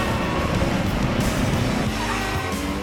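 A car roars off at breakneck speed along city streets, its engine loud, dense and continuous from start to end with no pauses.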